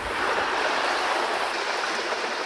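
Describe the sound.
A river flows in a steady, broad rush of water that stays even and unbroken throughout, with no voices.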